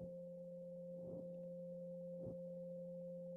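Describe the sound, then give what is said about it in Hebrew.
A quiet, unbroken pure sine tone, the 528 Solfeggio tone, hums steadily alongside a lower steady drone, with two faint, soft swells passing briefly behind it. “נקשיב לתדר 528, שזה תדר האהבה והניסים, תדר סולפג'ו עתיק, תדר של טרנספורמציה. הוא אגב נשמע ככה”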